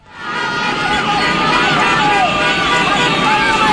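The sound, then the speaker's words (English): Dense street din from dozens of cars and motorbikes full of flag-waving demonstrators in Caracas, Venezuela, a loud continuous roar of engines and traffic with crowd voices mixed throughout. “And that is the sound of dozens of cars and motorbikes full of demonstrators waving giant flags and banners in support of Ms. Machado.”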